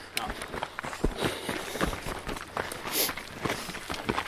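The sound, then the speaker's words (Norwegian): Faint running footsteps on a small, flat trail ridge, a quick, uneven patter of light thuds, with a voice audible at times. “nå springer vi oppå en flatt liten”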